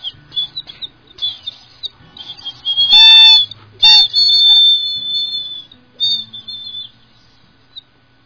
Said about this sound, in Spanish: También tenemos pajaritos lindísimos, varios, tanto en la sierra como en la costa, y suenan de esta manera.